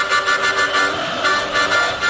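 Vuvuzela horns blare in a loud, continuous buzzing drone rich in harmonics, tied to a match of the Argentina national football team, with the volume swelling and dipping in steady pulses throughout.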